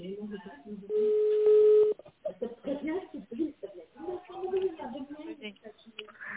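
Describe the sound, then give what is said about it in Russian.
Touch-tone telephone dialing an extension on a company's automated phone line: two brief keypad beeps in quick succession, followed by a person talking. “Пожалуйста, перейдите в ваш телефон в тоновый режим, наберите внутренний номер абонента”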